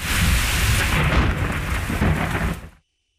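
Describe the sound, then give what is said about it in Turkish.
A nighttime thunderstorm with heavy rain over a capital city produces a loud, continuous roar of rolling thunder and dense rainfall that ends abruptly into silence. “Gök gürültülü sağanak yağış başkentte geceyi de gündüze çevirdi.”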